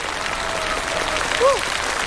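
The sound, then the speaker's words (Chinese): Applause from the audience at a live stage show with singers and wind instruments: a steady, even wash of clapping throughout, with a brief tonal, whistle-like note near the end. “再次掌声感谢，谢谢莫维蒂”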